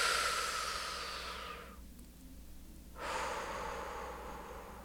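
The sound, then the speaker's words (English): A deep breath, drawn and released: two long, airy, breathy rushes with a short quiet pause between them, and no talking. “Take a deep breath.”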